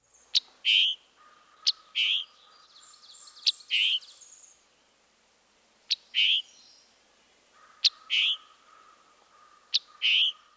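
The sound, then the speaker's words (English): Scarlet tanager giving its emphatic chick-burr call note: six sharp two-part calls, each a high clipped chick followed by a hoarse, burry note, spaced about two seconds apart over a faint steady drone. “Perhaps the most diagnostic part of the scarlet tanager's vocalization is the emphatic call note, chick-burr, chick-burr.”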